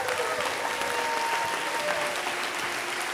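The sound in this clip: Applause from a church audience on its feet, welcoming a couple at a commissioning service before they launch a new church: dense, steady clapping fills the whole stretch at an even, full level.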